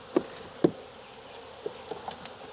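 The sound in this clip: Honeybees buzzing around an open hive: a faint steady hum, broken by a few sharp knocks and some softer ticks.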